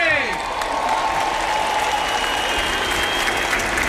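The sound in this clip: A crowd cheers and applauds as a figure passes close by along the aisles at a Mass in Spain: a steady, dense roar of clapping and voices that holds at an even level throughout.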